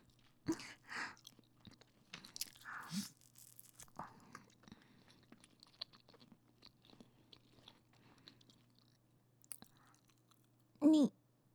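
Someone chews and bites into pan-fried flatbread, a few soft crunchy bursts of mastication spread over quiet stretches, faint overall.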